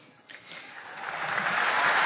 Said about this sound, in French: Applaudissements évidemment de la foule.